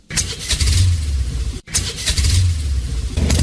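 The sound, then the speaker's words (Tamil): A vehicle engine runs loud and steady with a deep low rumble and broad roar, briefly cutting out for an instant midway before carrying on at the same level. “வாப்பா போகலாம், வண்டி எடுப்பா.”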